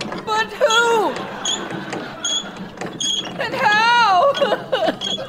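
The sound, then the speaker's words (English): A creaking winch cranks a bucket up a well in an audio drama: drawn-out squealing creaks that waver in pitch, mixed with excited voices. “stop cranking that winch! I ain't cranking, you're cranking! It's cranking itself! Someone's riding that bucket up the well!”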